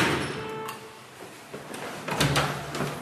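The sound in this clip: A front door being opened at a home during door-to-door neighborhood canvassing: faint clunks and a soft rattle of latch and door, low against quiet background noise.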